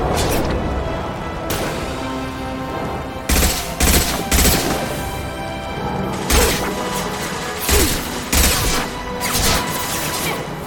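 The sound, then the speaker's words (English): Gunfire in a video game: several bursts of rapid shots ring out at intervals, sharp and loud above a continuous, noisy game background. “But there's a big thingy at the back corner, so I guess we're shooting at that.”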